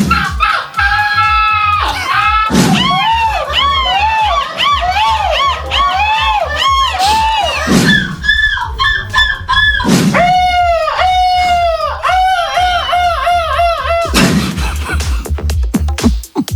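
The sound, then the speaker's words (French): Contestants at a European seagull-cry championship imitate gull calls with their voices, giving a loud, rapid series of high, arching, wavering squawks. A few noisy bursts fall between the cries. “Le but étant de convaincre le jury qui était présent afin de décrocher le titre de champion européen du cri de la mouette. Écoutez plutôt, je vous ai sélectionné quelques candidats.”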